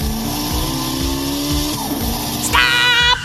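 A car being driven, its engine droning steadily under a regular thumping pulse, with a brief high-pitched whine near the end.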